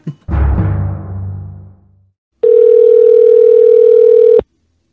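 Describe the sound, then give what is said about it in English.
A telephone dial tone plays while a call to the police is being placed. A brief decaying knock and rumble comes first, then a short pause, then a steady, loud, unbroken hum that lasts about two seconds and cuts off abruptly. “I'm calling the police. I'm calling Culver City Police.”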